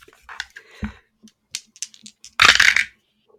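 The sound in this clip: Dice clatter on a table during a tabletop role-playing game: a few sharp, scattered clicks, then a brief dense rattle as they tumble and settle.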